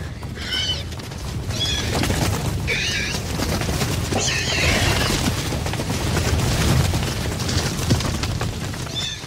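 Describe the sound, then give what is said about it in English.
A herd of Gallimimus dinosaurs runs past as a film sound effect: shrill, whinny-like calls repeat several times over a loud, continuous pounding of many hooves and deep rumbling. “So not only do we have the sound that the dinosaurs are making as they're running past them, but we also have the sound of the hooves that are going by.”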